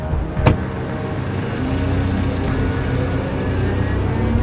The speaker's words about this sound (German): Los, beeil dich, der Mustang fährt los.